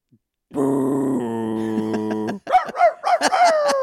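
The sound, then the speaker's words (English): A dog vocalizing: a sustained, steady whine-like tone, then a quick burst of short, uneven yelps and barks. “That's a dog.”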